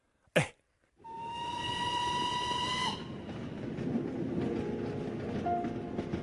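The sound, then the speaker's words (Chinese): A passenger train bound for Yan'an runs with a steady, dense rumble. A brief sharp burst comes first, then a sustained whistle-like tone sounds over the noise for about two seconds before the rumble carries on alone. “此刻我在开往延安的列车上给您写信”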